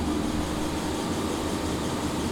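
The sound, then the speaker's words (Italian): Steady rushing water drives a small hydroelectric turbine in a little cabin beside a mountain stream, the surplus flow the turbine cannot use pouring past. A dense, even roar with a low rumbling hum holds unchanged throughout, with no voices. “Questa è l'acqua del Rio Cavallo, questa sarebbe acqua che attualmente la turbina avanza di troppo.”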